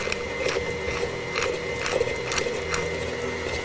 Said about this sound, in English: Once it gets going, we're going to turn the mixer up just a little bit.